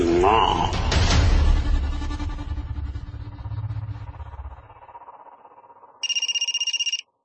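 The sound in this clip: A telephone rings in a rapid electronic trill, one short burst at the very end. Before it comes a longer stretch of louder, mixed sound that fades.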